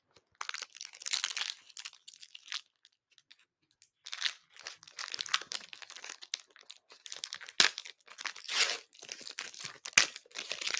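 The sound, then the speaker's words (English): Crinkling and tearing of an Evolving Skies trading card booster pack being opened by hand, with many bursts of crisp crackle separated by short pauses and no talk. “And now it's on to the packs. Alright, so I'm going to start with the Evolving Skies pack.”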